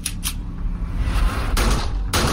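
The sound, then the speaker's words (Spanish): Gunshots in a violent close-range shooting: a few sharp, bright bursts stand out over a dense, continuous low rumble. “La remató con dos tiros en la cabeza.”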